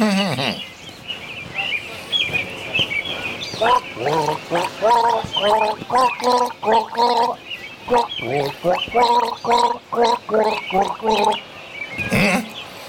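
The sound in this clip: A person gargles a sip of water, making bubbling, pitched bursts in a rhythmic sequence that rises and falls, loud and alone.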